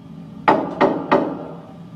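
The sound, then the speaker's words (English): Knuckles rap three times on a wooden door, each knock sharp and hollow with a short ring after, at a steady, even pace. “Yeah, I'll knock on the door behind me. That sounds good.”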